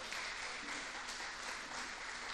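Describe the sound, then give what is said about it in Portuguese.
A church audience applauds during a sermon. The clapping is dense and even, fairly faint, and keeps steady for the whole stretch with no talk over it. “Dá uma salva de palmas se você está comigo.”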